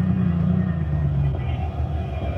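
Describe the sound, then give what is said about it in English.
A car engine runs as the car pulls into a parking space, giving a steady, low idling rumble with a faint hum and no change in pitch. “Now turn off the motor.”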